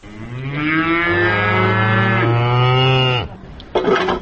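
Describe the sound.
A cow moos in a herder's livestock barn in a village in winter: one long, low, drawn-out call lasting about three seconds that sounds alone, then ends with a brief, softer noise.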